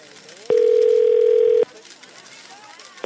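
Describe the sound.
Ringback tone of an unanswered call to a weekend emergency dentist line: one steady mid-pitched tone lasting about a second, with the next tone just starting at the end, over faint background noise.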